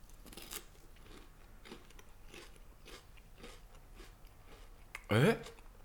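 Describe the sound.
Crunchy chewing of Tongari Corn corn snacks and Takenoko no Sato chocolate biscuits, heard as a series of soft, rhythmic crunches with a louder, harsher burst near the end.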